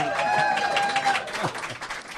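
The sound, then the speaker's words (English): An audience applauds at a live event, giving steady, dense clapping throughout, with a voice faintly heard under the applause near the start. “go ahead and applaud.”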